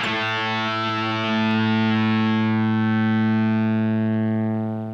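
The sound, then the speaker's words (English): Electric guitar note played through an Eventide harmonizer set to a choky digital fuzz rings thick and buzzy with dense harmonics. It swells slightly, then slowly decays and thins toward the end, with no talking. “the Crustacean by Eventide on the 8-9 harmonizer. It's a bit of a choky, fuzzy digital fuzz, which I really like.”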